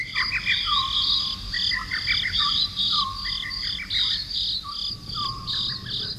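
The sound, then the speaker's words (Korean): Night insects chirp by a wall under moonlight: a steady, dense chorus of high, shrill trills with pulsing chirps repeating throughout, and no voices. “은은하게 비치는 달빛 속에 풀벌레 울음소리가 구슬프다.”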